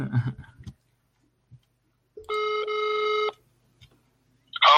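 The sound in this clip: Ringback tone of an outgoing phone call while calling someone back: one steady, buzzing electronic tone lasting about a second, heard alone between brief faint noises.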